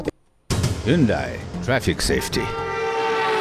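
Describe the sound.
Vehicle horns honking in a message about unnecessary horn use, with several loud, tonal blasts that waver in pitch over a continuous noisy background. A short silence comes before the horns start.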